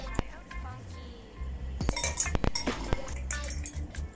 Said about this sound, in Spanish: Vamos a comenzar incorporando el hielo.